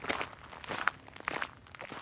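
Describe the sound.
Footsteps walk a few metres along the border fence in the buffer zone by the Evros river, a quiet series of irregular, slightly crunchy steps.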